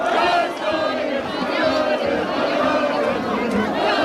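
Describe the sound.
A crowd across Spain celebrating a World Cup semifinal win, a dense, steady wash of cheering and many overlapping voices that continues without a break.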